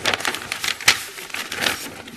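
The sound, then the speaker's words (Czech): Paper is handled with a few dry rustles and crackles, short bursts of crinkling with one sharper snap near the middle. “to je papír.”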